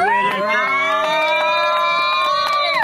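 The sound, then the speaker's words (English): Crowd cheering and whooping for a guest at a live church gathering, loud and unbroken for about three seconds, with a sustained high whoop holding steady over the roar before trailing off at the end. “let's make some noise for Carlos.”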